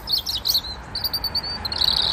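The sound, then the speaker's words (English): Birds sing outdoors on a housing estate, caught on a mobile phone: many quick, high twittering chirps come in bursts, fairly faint, over a low steady background rumble. “I was just walking out my estate and I heard the birds singing. So I whipped out my mobile phone and made a voice note recording.”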